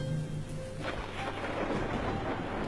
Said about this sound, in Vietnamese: ngoài trời gió vẫn rít, mưa vẫn rơi